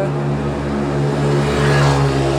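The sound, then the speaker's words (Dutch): Mopeds riding around: a steady, buzzing small-engine drone with a constant pitch, loud and continuous, swelling slightly toward the end. “Houd niet op met die brommetjes hier. Ik weet niet wat dat is, maar goed.”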